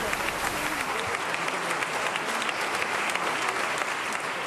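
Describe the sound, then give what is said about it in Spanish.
A theatre audience gives a loud, dense ovation during a play by Antonio Buero Vallejo, before the act has ended. The clapping is a steady, even roar that holds throughout, with no clear shouts standing out. “momento lo que se oía era una gran ovación con bravos, con, bueno, de todo. Y aún no había terminado la obra.”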